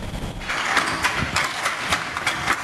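Hand loom beating threads into cloth while weaving patterned fabric on Ko Yo in Songkhla province: a steady series of sharp wooden clacks at an even rhythm over a continuous low mechanical rumble.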